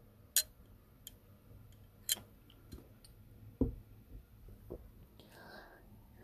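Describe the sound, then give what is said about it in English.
Water being sipped: a few soft mouth clicks and a low gulp scattered over quiet, with faint breathy sounds between them. “talking a lot, need a little water there.”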